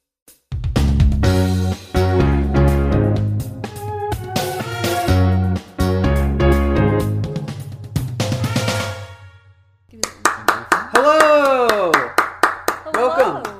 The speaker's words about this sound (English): Play the wife theme music. Play the wife theme music. Let's roll that wife theme music.